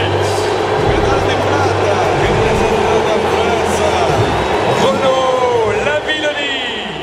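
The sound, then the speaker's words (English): A stadium crowd boos French pole vaulter Renaud Lavillenie. The loud, sustained roar of many voices continues throughout and eases slightly near the end. “That was indeed the razzing received by French pole vaulter Renaud Lavillenie, who had had the temerity to attempt to win the event for which he had spent 4 years training.”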